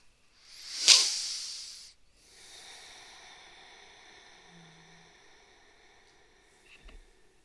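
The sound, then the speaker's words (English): A single slow, deep breath in a guided meditation rises to a loud airy rush and tapers off, followed by a soft, sustained tonal drone. “Breathe with me now.”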